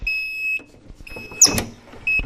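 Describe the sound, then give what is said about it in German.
A heat press beeps after its lever is pressed fully down to print a cotton bag. Repeated long, steady, high-pitched tones are broken by a short burst of clattering between them. “Und jetzt muss man den Hebel ganz runterdrücken. Und warten, bis es piepst.”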